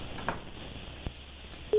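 A telephone call connecting, with a thin, band-limited phone-line hiss broken by a couple of short clicks, then a steady tone that starts abruptly near the end.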